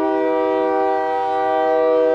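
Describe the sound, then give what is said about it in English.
A passing train near a house by railroad tracks gives a loud, steady, horn-like tone with stacked harmonics, holding level throughout over a low rumble. “And trains passed as we talked, pulling products out of Mexico.”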